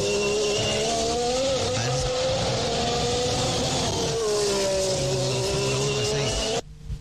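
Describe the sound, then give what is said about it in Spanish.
A Formula 1 car's V6 engine revving: a loud, high-pitched, continuous whine whose pitch climbs and drops repeatedly for several seconds before cutting off abruptly. “V6, muy bien, es un V6, ya.”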